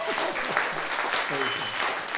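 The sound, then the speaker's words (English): Church audience applauding at a Christian fellowship gathering: a steady wash of clapping that continues while a voice talks over it. “We thank our audience for being with us and for, amen. Come on, give yourselves a hand.”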